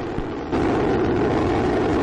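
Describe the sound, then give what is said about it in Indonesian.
NASA's Dawn spacecraft lifts off on a rocket in September 2007, a broad, steady roar that steps up sharply in loudness after a moment and then holds. “Diluncurkan pada bulan September 2007, wahana antariksa Dawn milik NASA dikirim untuk mencari tahu awal dari tata surya. Coming up on T-plus 25 seconds, transients of lift off.”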